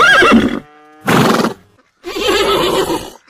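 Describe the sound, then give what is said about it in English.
Horses neighing on a farm: three loud whinnies with short quiet pauses between them, the last call the longest, with no talk over them. “that was the sound of some of the horses here on the farm”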